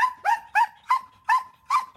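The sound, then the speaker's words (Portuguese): A working dog barks six times in a steady, evenly spaced series, each bark loud and mid-pitched with a sharp onset and short tonal tail, with no voices in between. “São cães com extrema energia, sempre disponíveis para trabalhar.”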